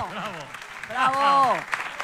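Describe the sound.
Audience applause on a live Spanish show, with clapping mixed with loud voices calling out over it in short bursts.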